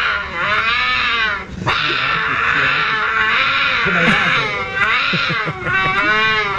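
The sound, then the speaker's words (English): A human voice imitates a cougar's mating call with long, wavering, high-pitched yowls that rise and fall. They run almost continuously, with a few brief breaks. “that's not birds. That's cougar mating.”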